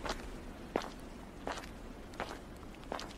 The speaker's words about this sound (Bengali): উপত্যকার দিকে যাওয়া এক ফালি রাস্তাটা ধরে হাঁটতে শুরু করলাম।